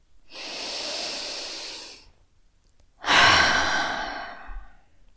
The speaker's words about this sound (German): atme einmal tief durch die Nase ein und den Mund wieder aus.